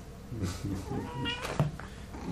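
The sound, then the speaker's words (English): A black cat meows softly, giving a few short, rising-and-falling cries in quiet surroundings. “We have a co-pilot tonight. A black cat named Annie.”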